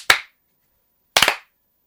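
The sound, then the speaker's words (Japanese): Hand claps with the hands spread about shoulder-width, part of a bowing ritual: one sharp, crisp clap, a second of silence, then a quick cluster of claps that fades briefly, with nothing else heard. “それから2拍手です。だいたい肩幅まで広げて2拍手します。”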